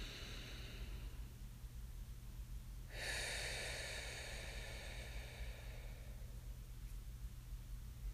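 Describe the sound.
A single deep breath makes a soft, airy rush lasting about three seconds. It is faint over a low, steady hum.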